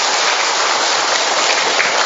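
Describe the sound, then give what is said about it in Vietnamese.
A big round of applause from a church audience giving thanks to God, dense and unbroken, a loud, hissing wash of many hands clapping steadily throughout with no voices on top. “Một tràng pháo tay thật lớn để chúng ta tạ ơn Chúa.”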